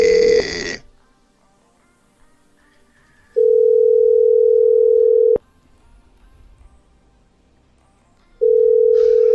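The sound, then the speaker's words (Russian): Telephone ringback tones after a number is dialled: a steady mid-pitched tone sounds in long bursts of about two seconds, separated by stretches of near silence, with a brief noisy burst at the very start. “Гудки пошли. Гудки пошли.”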